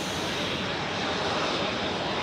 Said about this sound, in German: Mit einer Steigleistung von bis zu 200 Metern pro Sekunde hebt der Jet ab.